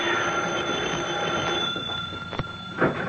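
A telephone rings in a house with a steady, sustained tone over a dense background hum. Near the end there are two short, sharp clicks, and no voices are heard.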